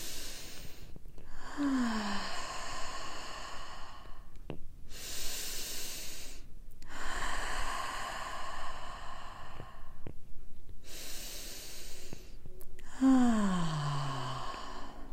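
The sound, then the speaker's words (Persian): Slow, deep breaths in and out during a guided meditation: a few long, airy inhales and exhales follow one another at a steady pace, and some end in a low sighing voice. No one talks. “سه تا دم و بازدم عمیق بگیر.”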